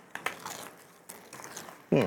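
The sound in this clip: Crunching of crispy food being bitten and chewed, heard as a few sharp crackly bites spread across the moment, followed by a brief hummed murmur of a voice at the end.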